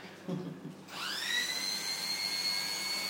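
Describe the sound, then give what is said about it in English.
Electric clippers shaving a dog's fur start up with a steady, high buzzing whine after a short moment of low background noise and keep running evenly to the end. “Are you shaving some of his fur off?”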